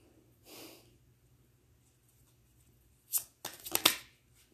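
Tarot cards being shuffled and pulled: a soft, brief rustle, then after a pause a quick burst of crisp riffling flicks and snaps, fairly faint. No voices.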